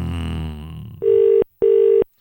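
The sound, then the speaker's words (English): Telephone ringback tone on a line to Westmeath, Ireland: two steady, even, mid-pitched tones of equal length, separated by a short gap, following a brief stretch of muffled noise. “It's ringing. Westmeath ringtone, that.”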